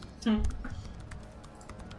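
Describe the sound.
Keyboard typing as a player writes a message during a tabletop role-playing game session: quick, light key clicks running under a voice that is briefly heard near the start.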